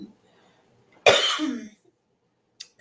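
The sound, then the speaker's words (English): A single harsh cough from someone with the flu, loud and brief, followed by quiet and a faint trailing breath. “Excuse me, I have ended up getting the flu, so I apologize for the cough.”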